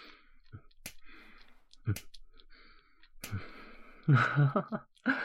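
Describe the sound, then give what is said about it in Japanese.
Light tapping on a belly comes as a few soft, sharp taps spaced by pauses, mixed with breathy sighs and gasps that grow louder toward the end. “ほら、お腹押すだけじゃ足りないでしょう。軽く叩いてあげるよ。”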